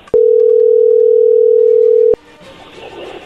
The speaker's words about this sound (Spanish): Pues vamos a llamarle y vamos a ver qué dice el mentado Jesús.